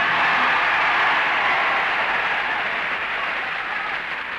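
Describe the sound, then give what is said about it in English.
Studio audience applause for the winning soprano on a televised talent contest, scored by a clap-o-meter, forms a steady dense roar of clapping that eases slightly toward the end. “The audience reaction indicator shows the winner tonight to be Ingeborg Nordquist. The same clap-o-meter gimmick was used on Queen for a Day,”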